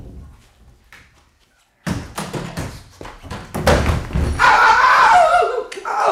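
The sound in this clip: A person falls while climbing onto a wardrobe: after a quiet stretch, a sudden burst of heavy thumps and knocks breaks out, followed by a rough, rumbling clatter and scraping that continue loudly to the end.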